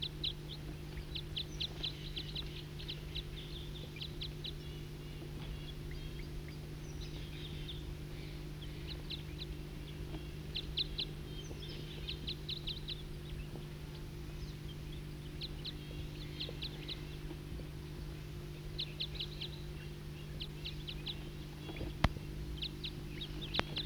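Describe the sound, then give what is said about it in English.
Wild bird calls in repeated bursts of short, high chirps, fairly faint, come and go over a steady low hum throughout. “Start recording a wild bird.”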